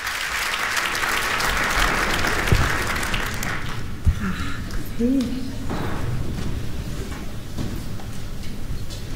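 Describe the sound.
A concert audience applauds and calls for an encore, the clapping loud and dense at first, then thinning to scattered claps with a few voices and small knocks.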